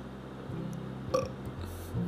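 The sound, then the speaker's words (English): A faint, low belch after eating penne alla vodka: a short, croaking rumble on its own. “I didn't mean to belch. I just had some penne alla vodka a few minutes ago.”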